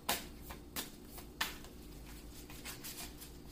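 Tarot cards are shuffled and drawn: three sharp card snaps come in the first second and a half, followed by softer, continuous riffling and sliding of cards.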